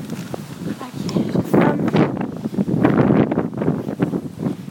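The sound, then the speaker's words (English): Wind buffets a microphone outdoors, a fairly loud, low rumbling roar that swells and dips in irregular gusts across the whole clip. “Gosh, I apologise for that wind.”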